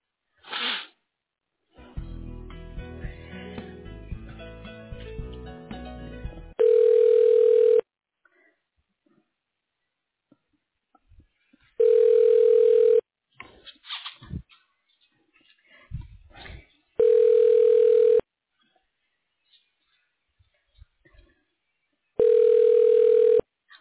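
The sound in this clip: Telephone ringback on a hospital radiology line as a call is transferred to voicemail. Four long, steady, evenly spaced rings come after a short stretch of other line sounds, with faint clicks between them.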